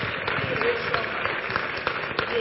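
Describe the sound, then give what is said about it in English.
A church audience claps for Jesus in a dense, steady round of applause that stays even and continuous throughout. “Clap for Jesus.”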